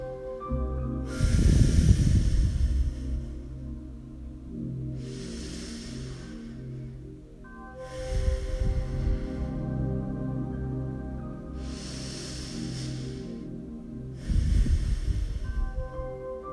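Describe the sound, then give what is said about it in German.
Three slow, deep human breaths come as soft, airy hisses that swell and fade, spaced several seconds apart over quiet, sustained musical tones. “Und nimm dir nun 3 tiefe Atemzüge Zeit, um es dir noch ein bisschen bequemer zu machen.”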